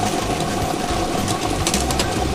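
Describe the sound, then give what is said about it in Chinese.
A lottery draw machine spinning 30 numbered balls gives off a steady, continuous mechanical whirring churn at even loudness, with no pauses and no voices. “好的，摇奖机已经正式启动了。通过镜头我们可以看到30个号码球在摇奖机当中正在快速的旋转着”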